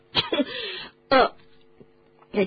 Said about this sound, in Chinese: 波西一口茶刚咽到一半，给呛住了。 他一边咳嗽着，一边说